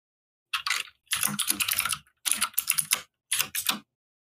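Computer keyboard typing in four quick bursts of crisp, clattering key clicks separated by short pauses, fairly quiet with no voices.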